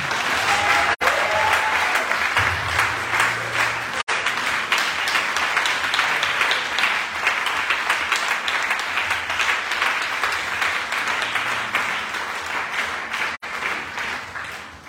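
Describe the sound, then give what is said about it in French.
A worship audience applauding to acclaim Jesus: loud, continuous clapping from many hands that stays steady throughout, without voices. “Est-ce que tu peux acclamer Jésus”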